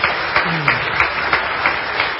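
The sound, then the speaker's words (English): Applause from a church audience during a morning service: dense, even clapping with regular small swells, heard on its own. “Another round of applause. That's awesome.”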